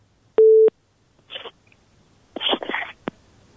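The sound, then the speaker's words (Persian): A single steady beep of a phone busy signal marks a call that failed to connect. The one mid-pitched tone is followed by a few short, rustly bursts of noise. “بله متاسفانه تماس ما درست برقرار نشد”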